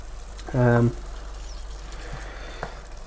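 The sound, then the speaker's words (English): Minced meat browning in a hot pan as it is stirred, giving a steady, even sizzling hiss that runs throughout with a brief louder tonal burst near the start. “The main thing that we're doing here is just browning the mince.”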